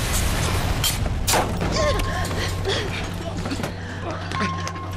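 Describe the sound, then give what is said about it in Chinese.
Strong explosion in the direction of a cave, heard as several heavy booming thuds and sharp bursts mixed with voices talking. “监测到洞穴方向发生强烈爆炸。”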